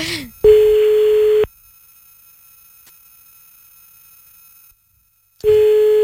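Telephone call tones sound before the line reaches voicemail: two long, steady, low-pitched ringback tones, each about a second long, separated by a long stretch of near silence.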